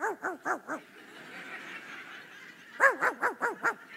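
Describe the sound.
A human voice imitates a dog barking at night: a quick run of four pitched, yappy barks, a short murmuring gap, then five more barks in a tight, even rhythm.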